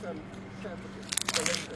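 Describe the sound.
Someone biting into and chewing a strong-smelling food: a quiet stretch with a low hum, then a few crisp, wet crunching bursts near the end.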